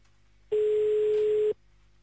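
A telephone tone sounds while a call is placed back to someone: one steady, flat, mid-pitched beep lasting about a second, heard alone with no talk.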